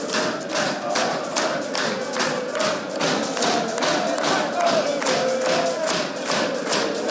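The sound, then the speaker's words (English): A football crowd bouncing in a stadium makes a dense, loud roar with steady rhythmic thuds that repeat many times at a quick, even beat throughout. “Everyone's bouncing.”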